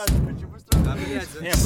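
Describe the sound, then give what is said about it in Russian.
Knocking comes as three heavy, booming thuds spaced well apart, each a loud, deep hit that rings briefly before the next. “Кто стучит, нахуй?”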